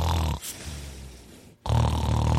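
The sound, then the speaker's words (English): A person snoring loudly: two heavy, rasping, low-pitched snores with a quieter breathy stretch between them. “How long are you going to snore? Am I supposed to just tell it over loud snores?”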